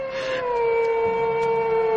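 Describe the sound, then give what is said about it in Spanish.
A wolf howls at a window: one long, steady, tonal wail with clear overtones that holds its pitch and sinks slightly toward the end. It is loud and heard alone throughout. “El lobo. El lobo está ahora en la ventana.”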